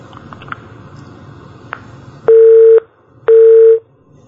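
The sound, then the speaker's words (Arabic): A telephone busy tone follows a dropped call on a call-in show: two steady, mid-pitched beeps, each about half a second long, with a pause between them over faint background noise. “واضح ان الاتصال انقطع.”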